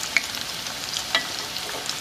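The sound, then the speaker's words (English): Food sizzles in a cast iron pan on medium-low heat, a steady hiss of frying with a couple of brief louder pops. “just adjust your temperature to where you're getting a good fry and you're not burning them as soon as they come on here.”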